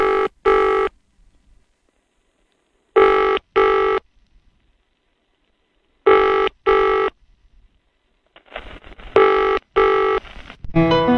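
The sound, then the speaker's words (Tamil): A phone call ringing out unanswered, a ringback tone sounding in repeated double rings, about four cycles, with a couple of seconds of silence between each pair. “சரி இருங்க, நான் phone பண்ணி பாக்குறேன்.”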